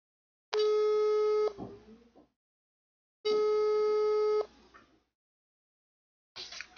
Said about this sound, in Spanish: tenemos una importante llamada que ahorita vamos a hacer.